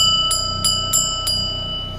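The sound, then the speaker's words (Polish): A dinner bell is rung aboard a boat in a marina, striking four times at an even pace. The bright, high metallic rings sit over a steady low hum. “Dzwonek na obiad.”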